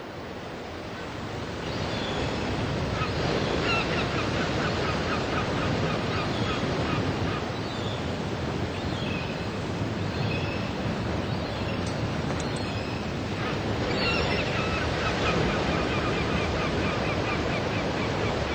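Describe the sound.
Sea waves roll in a continuous, broad roar of surf that stays steady and full for the whole long stretch, with no talking.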